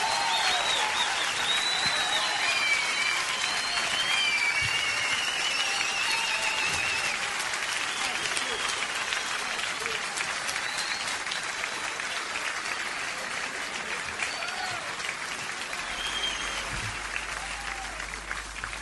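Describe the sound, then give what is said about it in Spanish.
Audience applause fills the whole stretch, a dense, steady wash of many hands clapping at an even, fairly loud level that keeps going without a break or any talk over it. “Fuerte el aplauso para ellos.”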